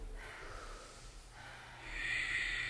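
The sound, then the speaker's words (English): Slow breathing through the nose during a yoga session, soft airy breaths drawn out over several seconds, faint and hissy with no talk. “Simple inhale, simple exhale through your nose.”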